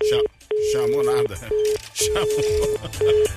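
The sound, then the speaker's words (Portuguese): Ringback tones of an outgoing telephone call that goes unanswered, repeating in several steady bursts with people talking over them. “Tô te ligando, hein? Tô te ligando.”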